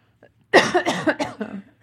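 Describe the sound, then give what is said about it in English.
A quick run of several harsh coughs follows a faint, brief throat sound, with the bursts coming in an uneven, rapid rhythm. “Sorry, still got that cough.”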